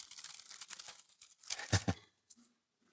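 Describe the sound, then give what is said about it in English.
Thin Bible pages turned by hand: a quick run of soft papery rustles and crisp flicks, then a couple of fainter ones, all quiet and with no talk. “It's all the little pages or clicks. Click, click, click.”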